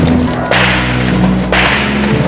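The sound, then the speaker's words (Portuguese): Gunshots from a shootout between police and drug traffickers in a favela street: two sharp, loud cracks about a second apart over constant heavy background noise. “Em outro ponto, os bandidos continuam atirando.”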